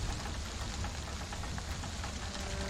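Rain falls outside a shelter as a steady, even hiss of drops spread across a wide band. It is fairly quiet and continuous, with no clear separate events and no voices.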